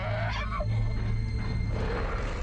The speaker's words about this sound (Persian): اسم اینو گذاشتم نعره مخصوص سگ هار.